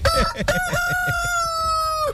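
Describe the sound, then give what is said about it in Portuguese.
A rooster crows once: a loud, drawn-out, strongly harmonic call about two seconds long that holds a fairly even pitch before cutting off. “Quem é o cantor? Ou não é o cantor, é o galo, rapaz.”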